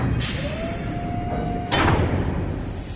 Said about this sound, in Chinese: 船舱的门在移动，而且太迟了，舱门马上就关上。